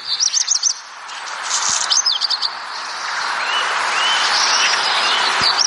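A black redstart sings in short, high chirping phrases at the start and again mid-way, then thinner drawn-out notes follow, all over a steady, fairly loud hiss of background noise.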